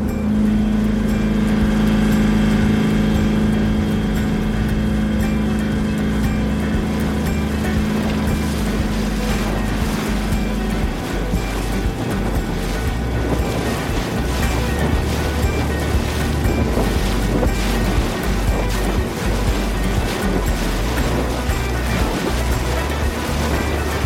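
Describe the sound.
A boat splashes through choppy water toward a sheltered bay beach, giving a loud, continuous wash of spray and wind noise over a steady engine drone. A low humming tone fades out about halfway through.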